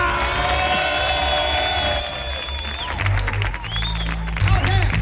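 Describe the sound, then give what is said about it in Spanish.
An audience at the Auditorio Cartuja cheers, whoops and applauds, with a loud, continuous wash of clapping and shouting voices. “Un público que hoy nos arropa, que hoy nos acompaña en el Auditorio Cartuja. Un público que suena así, con esta energía.”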